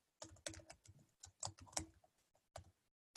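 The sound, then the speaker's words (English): Typing on a computer keyboard while entering a word into a chat: a quick run of many crisp, clicky keystrokes in an uneven rhythm, with no talk over it. “I also work with Genos International, and I'll type Genos into the chat here.”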